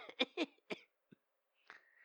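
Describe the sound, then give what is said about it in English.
Faint coughing from a man, a few short, dry bursts with brief gaps and a softer rasp at the end. “Why's he got that cough?”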